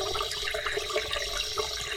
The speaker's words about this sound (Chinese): 还拿水泼我！